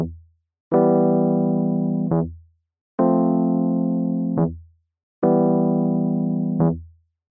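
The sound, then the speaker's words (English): An E bass note sounds three times, each struck with a clear attack, held for just over a second, then cut off, with short gaps of silence between the notes. “Played normally, the bass note is quick and anticipated and sounds like this.”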